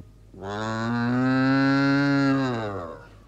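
An ox moos once in a long, loud, sustained call with a steady, slightly nasal pitch that swells and then fades, heard alone with no talking.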